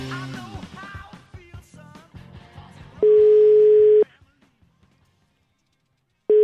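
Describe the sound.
A telephone busy tone sounds after a caller hangs up. A steady, fairly loud mid-pitched tone holds for about a second, falls silent, then starts again at the end. Brief voice-like sounds come before it.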